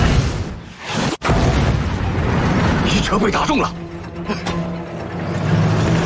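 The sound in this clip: Tank cannon fire in a tank video game: one sharp, heavy boom cuts through dense, rumbling battle noise, with voices talking throughout.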